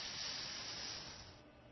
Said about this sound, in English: I wonder if the hiss got through. We've got a de-esser on the compressor.